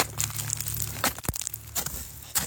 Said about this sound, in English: now is time for me to cut my way out of this ice cave to rejoin my fellow guides.